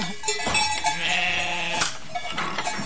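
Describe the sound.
A flock of ewes arrives back at their home on the farm, many overlapping bleats rising and falling in a dense, continuous chorus at steady, fairly loud level, with no voices.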